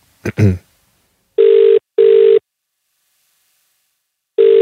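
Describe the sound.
Ringback tone of an outgoing phone call: steady mid-pitched buzzing pulses, two in quick succession and then another after a longer pause, preceded by a brief voice.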